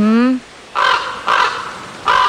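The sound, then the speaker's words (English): A raven caws three times, each call a harsh, guttural burst separated by short gaps. A brief human voice comes just before the first caw. “Sometimes you'll see two ravens together, but usually you just hear one cawing like this.”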